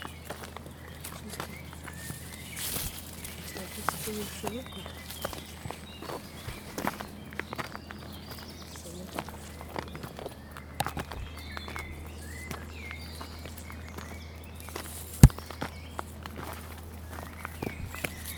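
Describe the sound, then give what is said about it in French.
Footsteps walking: many soft steps in an irregular rhythm over a low steady hum, with one sharp, loud thump near the end. “C'est pas pourtant compliqué de marcher.”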